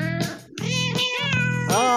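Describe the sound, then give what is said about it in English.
A cat meows a few times in quick succession, with clear, tonal, drawn-out cries and no other sound around them. “Down through the chimney is a cat.”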